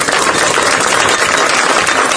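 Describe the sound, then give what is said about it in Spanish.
Dense applause from neighbours, many hands clapping at once in a loud, continuous wash with no pauses or voices. “Así aplaudieron los vecinos al fiscal Abel Córdoba”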